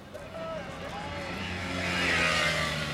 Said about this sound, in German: Was ist denn das für ein Wagen? Komm, steig ein.